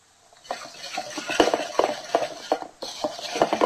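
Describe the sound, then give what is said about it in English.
Whisk beating soy milk into a mixture in a bowl gives many quick metallic clinks and scrapes in an uneven, steady rhythm. There is no talking. “So now we just stir, we whisk with a whisk until it's blended thoroughly.”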